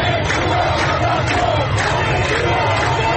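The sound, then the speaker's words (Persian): A crowd of protesters gathered near Sharif University in Iran, demanding the release of detained students, shouts and chants in a dense, unbroken roar of many voices. “با این حال اطلاع رسانی از وضعیت دانشجویان بسیاری از مردم را به اطراف دانشگاه شریف کشاند تا خواهان آزادی دانشجویان شوند.”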